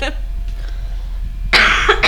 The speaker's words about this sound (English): I'm trying really hard not to cough in the mic.